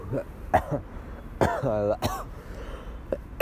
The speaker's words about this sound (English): I still am coughing though, which is fine.